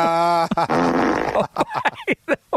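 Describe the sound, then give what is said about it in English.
A fart sound effect plays as a loud, buzzy, rasping blast lasting over a second. A few short, choppy vocal bursts follow it. “teed up his own fart drop there”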